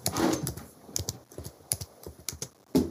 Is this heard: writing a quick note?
yes

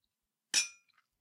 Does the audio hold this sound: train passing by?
no

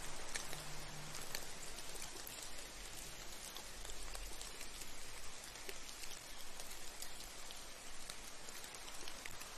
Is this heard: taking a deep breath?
no

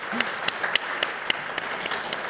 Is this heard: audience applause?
yes

